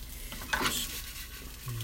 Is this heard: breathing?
no